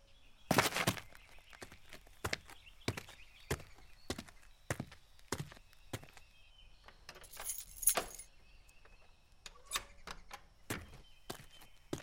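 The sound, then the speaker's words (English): Keys jangle as a store is locked up, giving many sharp, bright metallic clicks and rattles in uneven bursts separated by short quiet gaps. The whole is fairly faint. “All right, store's closed today. We're leaving. Where do you live again? yeah, I can just lock the store like that.”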